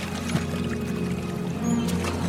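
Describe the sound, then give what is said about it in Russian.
Gentle water sloshing and trickling on a calm sea as a rowed boat approaches a launch lying at anchor, a steady low murmur with soft splashes and no voices. “Море. На тихих волнах, почти неподвижно, на якоре стоит баркас. К судну подплывает лодка.”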